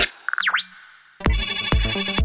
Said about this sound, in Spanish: Llamada entrante.